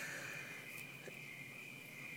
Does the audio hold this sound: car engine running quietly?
no